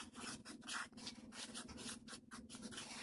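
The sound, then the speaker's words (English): Handwriting makes faint, scratchy rubbing strokes in a steady, continuous series, with no voices. “Okay, now you'll see why I'm taking the time to write this all together.”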